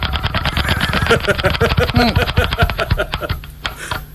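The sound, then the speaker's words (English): Rapid ticking of a spun prize wheel, a dense, steady run of clicks that carries on for several seconds without pause. “I'm going to spin my little wheel. Look, I don't want to know which wheel you spin and which bed lands on. Look, I spin it, yeah, I spin it.”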